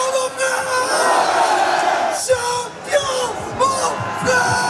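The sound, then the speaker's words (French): A crowd cheers and yells as football players are celebrated one by one on stage. A loud, sustained roar is broken by a few sharper bursts of shouting in the later half. “Sur scène, un à un, les joueurs sont acclamés avec un chouchou.”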